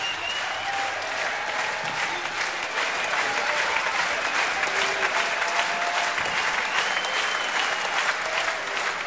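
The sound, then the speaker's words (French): Dense, sustained applause from a concert audience at the Grand Rex calling for an encore from a saxophonist. The clapping stays loud and steady for the whole stretch. “Merci Monsieur Dibango, Manu Dibango, que le public du Grand Rex réclame encore et encore.”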